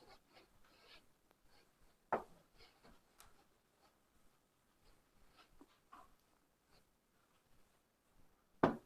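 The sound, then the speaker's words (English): Writing being erased from a board: faint, scratchy rubbing strokes repeating in many short scrubs, with two sharper knocks standing out, one early and one at the very end. “We have about 10 minutes, so I'm just going to erase what I wrote down.”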